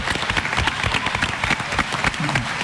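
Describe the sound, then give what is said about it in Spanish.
Audience applause for a well-liked media figure, with individual claps clearly separable in an irregular, moderately dense patter at a fairly steady level, and a brief voice near the end. “Otro aplauso para Lalo,”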